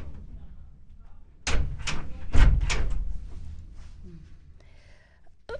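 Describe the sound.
A door is closed with a few loud knocks and thuds bunched together, followed by softer rattles and quieter handling noise.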